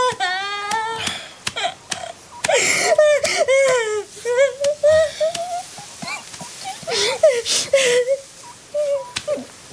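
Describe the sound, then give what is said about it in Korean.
A person cries, sobbing and wailing in wavering, uneven bursts with shaky breaths between them. “다 울었어? 다 울었으면 가봐.”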